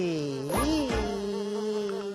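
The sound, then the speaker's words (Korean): A fly buzzes in a steady droning hum, with a brief upward swoop in pitch early on before it settles into an even tone to the end. “아, 파리 비행사님이다.”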